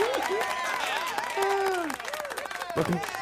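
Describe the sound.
Canned applause and crowd cheering set off by a sound-effect button, a steady wash of clapping with voice-like whoops rising and falling over it.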